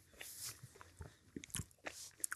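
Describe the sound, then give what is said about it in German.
Chewing of a chewy snack bar right into the microphone: faint, irregular crunchy bites and wet mouth clicks in quick succession, with no talking. “Man sollte auch nicht ins Mikrofon reinkauen und schmatschen. Also, na komm. Dann müsst ihr uns jetzt kurz verzeihen.”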